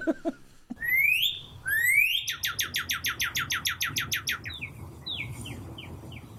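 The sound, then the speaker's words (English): A northern cardinal sings alone, clear and loud. Two slurred whistles rise in pitch, then a rapid run of many short, bright, downslurred chirps follows, ending in a few fainter, spaced notes. “I believe our engineer, Betsy, has a cardinal call in there. So we'll see if how close I was to the annoying, "You're awake. You're awake."”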